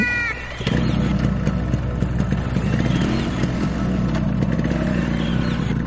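A motorcycle engine starts after a brief quieter moment and then runs loud and steady for several seconds, its rough drone continuous to the end.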